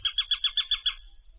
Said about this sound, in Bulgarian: Сега е пролет и ще започна с песента на чучулигата.